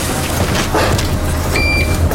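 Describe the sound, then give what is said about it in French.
City bus arriving on a dedicated bus lane: a steady low engine rumble under broad traffic noise, with a brief high beeping tone near the end. “Un bus à l'heure, ça change.”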